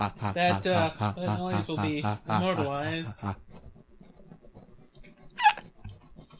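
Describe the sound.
A beard rubs against a microphone, making a soft, scratchy rasping that follows a stretch of people talking. The texture is faint and fairly rhythmic, with one brief louder scrape near the end.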